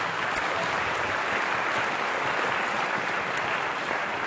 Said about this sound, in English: you can give her a clap